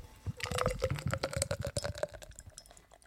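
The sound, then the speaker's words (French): Beer being poured and foaming: a bubbly, gurgling liquid sound with irregular fizzing clicks that thin out and fade toward the end. “Ça mousse. Hein. Ah, ça mousse.”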